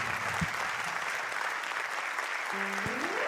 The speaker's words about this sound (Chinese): 谢谢大家，感谢大家热情的掌声鼓励哦